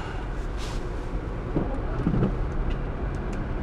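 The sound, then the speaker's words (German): A car driving on a slippery snow-covered road produces a steady low rumble of engine and tires throughout, with a couple of soft brief swells. “Ich fahre hier mal wie wild. Nein, gar nicht wie wild. Die Straße ist rutschig.”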